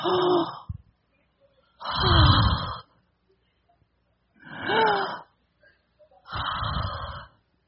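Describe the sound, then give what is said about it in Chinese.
Yawning during a relaxation warm-up exercise: four drawn-out, breathy yawns, each with a voiced tone that slides in pitch, separated by short silences. “打个哈欠”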